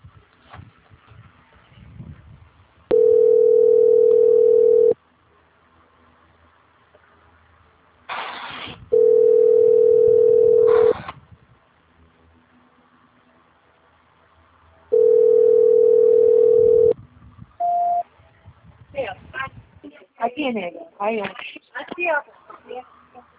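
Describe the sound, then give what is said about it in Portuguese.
A telephone hold tone plays while a call is transferred: three long, steady, mid-pitched beeps of about two seconds each, separated by gaps of faint noise, then a short beep and a stretch of busier, irregular sounds. “Desejo a senhora um excelente dia, só um minuto, por favor, que eu vou transferir a sua ligação. Transferência.”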